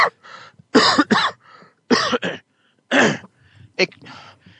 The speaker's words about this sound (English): the coughing is a sign that I need water